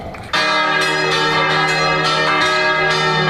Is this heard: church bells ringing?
yes